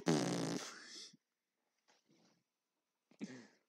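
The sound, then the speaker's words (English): A fart: a buzzy, low, sustained burst of about a second, followed by two fainter, shorter sputters separated by silence. “Fart. Do you fart? Do you fart?”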